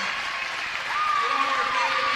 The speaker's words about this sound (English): she gets a plaque and a standing ovation right now from the Mountain Home crowd.